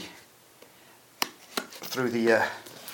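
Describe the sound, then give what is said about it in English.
A knife slices through the seals of a new Samsung Galaxy Note 2 phone box, giving a few faint, sharp clicks and soft scraping, followed by a voice talking. “I've got the box in my hand, and I'm just going to prise my way into it now, get through the seals, and I'm just slicing”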